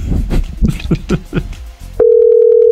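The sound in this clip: A steady telephone dial tone sounds alone after about two seconds of talk as a call is placed to a listener. The tone is loud and holds at one even pitch.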